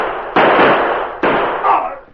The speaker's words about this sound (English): As Buck Grove fell to the road dead, the men with him fired point blank at the guard.